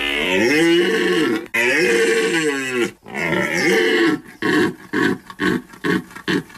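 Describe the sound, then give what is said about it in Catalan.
A red deer stag bellows during the rut in the Pyrenees: two long, loud, deep roars followed by a run of short, gruff grunting calls. “És la brama del cèrvol.”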